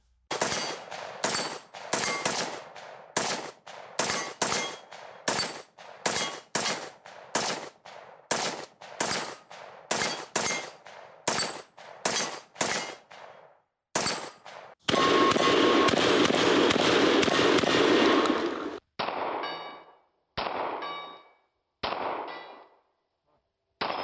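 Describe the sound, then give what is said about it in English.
Loud, sharp gunshots from an AR-15 rifle, a shotgun and a Glock 19 pistol ring out as many separate cracks in an uneven rhythm, then a long unbroken roar of rapid fire, and finally a few last single shots. “Now here is a guy shooting an AR-15, a regular old shotgun, and a Glock 19.”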